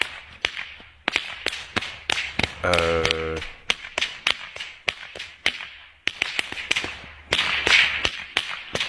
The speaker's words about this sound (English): It's a guy with two whips doing impressive... Oh. Listen to this. He's whipping these whips all around him like nunchucks.